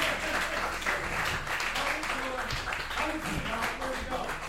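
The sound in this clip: Seminar audience applauding a speaker: steady, dense clapping throughout with voices mixed in.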